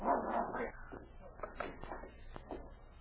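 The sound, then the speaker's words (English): A dog whimpers and yelps in a few short, thin cries over a low background hum, at moderate loudness with no clear voices. “Get that cur out of here before I put a bullet in him. You so much as touch this dog again and I'll kill you.”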